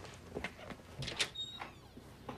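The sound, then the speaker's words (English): A back door opens as someone walks in, giving a quiet scrape and rustle with a brief high squeak partway through. “walks in through the back door and enters the kitchen”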